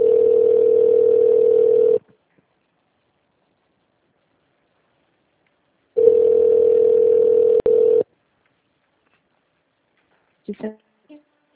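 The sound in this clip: A telephone ringback tone plays while a call connects: two steady, single-pitched tones of about two seconds each, separated by a few seconds of silence, then a brief voice answers.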